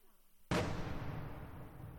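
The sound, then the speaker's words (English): A single heavy boom of outgoing fire from a pro-Russian artillery piece near a village. It strikes sharply out of a faint background and leaves a long, low rumbling tail. “The boom of outgoing fire, a pro-Russian artillery piece, can't be far from the village.”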